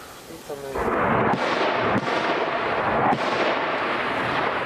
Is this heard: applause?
no